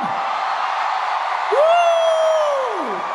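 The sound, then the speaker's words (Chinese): Taiwanese fans cheer and shout at a concert-related entertainment event, a steady, dense roar of many voices, with one high whooping shout that rises, holds and falls away near the end. “很久很久没有听到台湾的朋友们的欢呼声，可以再叫一次吗？”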